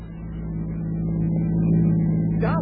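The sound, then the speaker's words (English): A car drives at night in a sound effect from a 1949 radio drama, giving a steady low engine drone that swells slightly in level, with a brief higher sound near the end. “We've got at least 2 hours more driving, though, before we get to Mexico City.”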